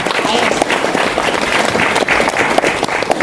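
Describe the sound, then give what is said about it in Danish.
An audience applauds a panel of politicians on stage at a debate event, with dense, steady clapping that stays loud and even for about three seconds. “Det må vi gerne klappe af.”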